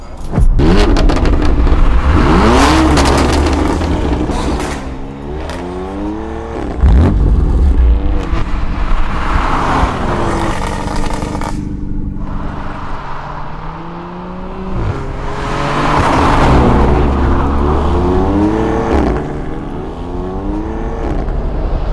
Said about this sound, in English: That right there is a one of one Ford Raptor pickup